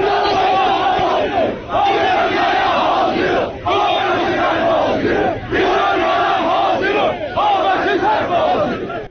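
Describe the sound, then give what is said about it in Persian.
A crowd at a protest gathering in Tabriz against the television program Fitil chants loudly in unison. A slogan repeats in phrases separated by short breaths and dips in volume. “صدای ویدئویی بود که روز دوشنبه در شبکه‌های اجتماعی منتشر شده و در توضیح آن آمده که مربوط به تجمع‌های روز دوشنبه در تبریز و در اعتراض به”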